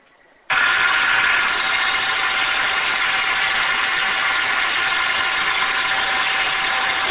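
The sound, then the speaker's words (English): An air blower blows steadily down onto chilled product in a food processing line. It starts with an abrupt loud rush of air, then holds an even, continuous whooshing roar with a faint steady hum inside it until the end. “This is a blower. It's a blower.”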